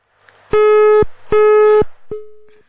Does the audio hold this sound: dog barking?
no